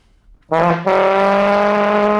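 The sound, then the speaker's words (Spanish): A trombone playing a sustained brassy note. A short first attack is followed at once by a fuller, louder entry that holds steady to the end. “Esta es la trompeta en el mismo momento. Bueno. Y este, el trombón.”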